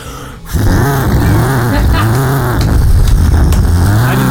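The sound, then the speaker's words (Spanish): A voice imitates a revving Torino car engine fitted with a different exhaust pipe. It is a loud, raspy, buzzing drone with repeated rising and falling swells that starts abruptly after a brief pause and carries on to the end. “Auto, pero con el caño distinto. Es que voy a hacer el ruido la que hice la vez pasada.”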